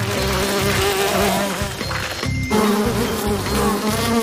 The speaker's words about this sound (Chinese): 看看裂开的蜂窝有这么多蜜蜂。 只要保持安静，不靠近他们，蜜蜂就不会伤害我们。